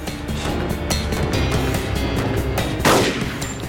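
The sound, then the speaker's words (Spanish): Gunfire from a suspect shooting during a police pursuit, heard as a few sharp, loud reports cracking over a dense, continuous noisy background, with one especially strong blast near the end. “El sospechoso desaparece en el área industrial. Disparó 32 balas. Una de ellas hirió a un transeúnte.”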